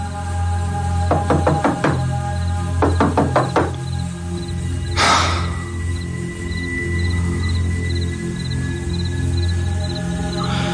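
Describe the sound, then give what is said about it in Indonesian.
Knocking on a door by a food delivery driver bringing a fried rice order: two quick bursts of several sharp raps over a steady low hum, followed by a brief noisy rush. “Beberapa kali aku ketuk, tidak ada jawaban.”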